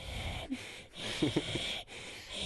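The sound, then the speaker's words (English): A man imitates another man's heavy breathing: a few long, raspy, noisy breaths with brief pauses between them, fairly faint. “what the one guy does is he'll breathe like,”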